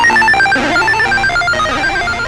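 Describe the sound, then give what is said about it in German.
The Bubble Bobble video game theme plays from a mobile phone on a coach bus trip as a bright, tinny chiptune melody. Quick, bouncy repeating notes sound alone, with no talking. “Soll ich auf meinem Handy Bravo-Hits anmachen oder das Bubble-Bobble-Theme? Bravo-Hits. Ah ja, eindeutig Bubble-Bobble.”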